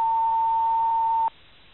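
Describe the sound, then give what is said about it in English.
A single answering-machine beep tone rings out, steady and mid-pitched, holding for just over a second before cutting off abruptly into near silence. “I'm not at home at the moment. Please leave a message after the tone.”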